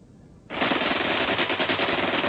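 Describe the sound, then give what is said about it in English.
Rifle and machine gun fire in a wartime ambush on troops in a narrow mountain pass. Loud, rapid automatic bursts begin abruptly after a brief quiet moment and continue without pause to the end. “Rifle and machine gun fire rained on them from above and to their front.”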